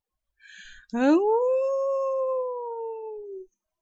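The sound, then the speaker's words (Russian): A person imitates a wolf howl with their own voice: a short breathy noise, then one long voiced howl about two and a half seconds long that rises quickly, holds steady and trails off slightly lower, loud and alone. “Вой больше напоминал вопль, причем предсмертный.”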